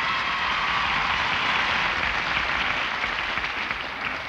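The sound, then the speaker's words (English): Dense audience applause, a crowd including the balcony welcoming the King Cole Trio; loud, steady and continuous throughout with no voices. “free cigarettes and applause would be asking too much. But naturally, since our guests have to pay for their Old Golds, we like them to get a royal welcome. So cut loose there, balcony.”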